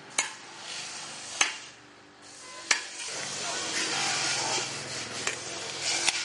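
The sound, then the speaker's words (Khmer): A scraper rasps the flesh out of a split coconut half in a steady, gritty scraping. Several sharp clicks break through the rough texture as the blade strikes the shell. “គេពុះដូងជា2ហើយគេយកខ្នោះមកកោសយកសាច់ដូង”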